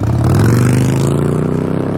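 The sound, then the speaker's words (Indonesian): A motorcycle engine drones loudly and steadily as the bike speeds through a red light, a rough, low, buzzing growl that runs without a break for two seconds. “tuh orang ngebut bener bawa motor.”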